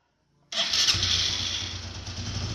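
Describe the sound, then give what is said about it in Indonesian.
A motorcycle engine starts abruptly and settles straight into a loud, steady running roar with a low rumble underneath. “Dengan mengendarai sepeda motornya”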